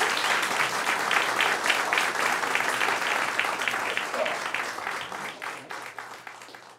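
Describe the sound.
A live audience at West of Lennon in Seattle applauds in a dense, steady burst of clapping that runs the whole time and slowly tapers off toward the end.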